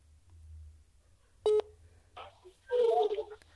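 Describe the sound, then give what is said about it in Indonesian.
A phone number being dialed to place a call: a single short, bright keypad tone, a quiet pause, then a louder burst of warbling sound. “sekarang kita telepon dia. Semoga diangkatnya cepat.”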